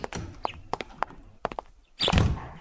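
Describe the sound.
Two people push a door open and walk in: a run of soft thumps and scuffing steps, then a louder, dense burst of rustling and knocking near the end.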